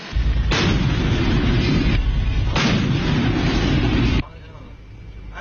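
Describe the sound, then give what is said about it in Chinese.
Warship main gun firing at a floating buoy target during a sea drill: two heavy blasts, each followed by a long roaring rumble, then a quieter tail. “主炮注意，对海射击，打击目标144辆。”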